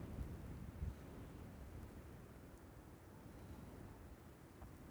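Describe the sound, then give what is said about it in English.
Wind blowing outdoors in the evening, a steady, broad low roar and rumble that holds at an even level throughout, with no voices. “The wind's picked up, you can probably hear”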